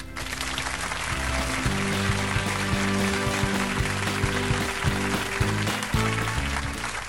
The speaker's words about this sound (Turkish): Bir alkış alalım ona.